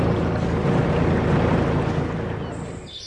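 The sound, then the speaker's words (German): A fishing cutter leaving a large North Sea harbour at Cuxhaven: a steady low engine drone under broad rushing wind and water noise, fading slightly at the end. “Und so klingt es, wenn ein Kutter den großen Hafen verlässt.”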